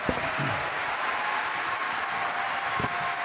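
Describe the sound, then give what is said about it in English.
Steady audience applause for the 2013 Pro Football Hall of Fame inductees, a continuous, even wash of many hands clapping from start to finish. “All right, that concludes our program. Give these guys a hand, everybody.”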